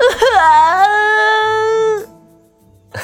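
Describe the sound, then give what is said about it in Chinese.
A child bursts into loud crying with one sustained, quavering wail that lasts about two seconds and then breaks off into near silence. “小四子愣了良久，随后仰脸哇的一声哭了出来”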